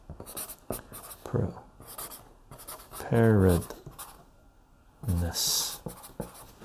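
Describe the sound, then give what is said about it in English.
Notes being written by hand during an ASMR stream: scratchy pen strokes in irregular bursts with pauses between them. A few voiced sounds interrupt, including a louder stretch in the middle. “I'm gonna write that down.”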